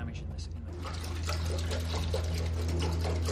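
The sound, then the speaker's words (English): Water pours and trickles around a sinking model warship, a steady wet splashing and gurgling over a strong low, constant hum. “Gosh, I think it's going to sink. Now it puts our model under serious strain. You can see the bow going way down now.”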